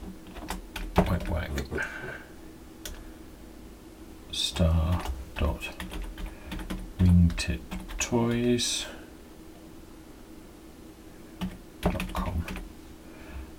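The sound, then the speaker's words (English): Clattering keystrokes on a computer keyboard as a web address is typed, many quick taps in uneven bursts with a few pauses, while a person talks over the typing. “And all I'm going to do in here is type http”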